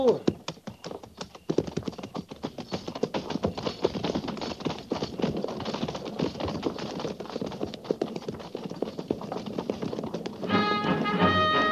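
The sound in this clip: Hooves clip-clop as horses of a mounted column walk forward in pairs, a dense, steady run of many overlapping clops that keeps going throughout.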